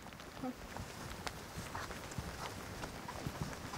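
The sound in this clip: Faint hoof steps of a yearling horse being led at a walk, soft irregular thuds over a quiet background, with a low voice speaking at times.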